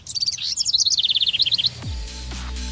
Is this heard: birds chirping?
yes